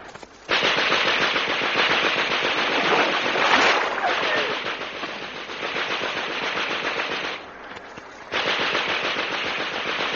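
Sustained machine gun fire erupts right after a command to fire, a dense, loud, continuous rattle that briefly dips near the end before resuming at full force.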